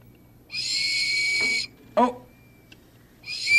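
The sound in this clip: A whistle is blown in two high, steady blasts at a museum. The first blast lasts about a second and the second is cut off at the end. A brief voice sound comes between them.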